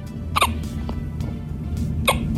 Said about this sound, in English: Those hiccups are so cute.